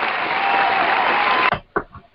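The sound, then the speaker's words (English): Audience hand claps form a dense, steady burst of applause that stops abruptly partway through, followed by a couple of short, isolated sounds before fading out. “we got to put some hand claps for that there, right after that”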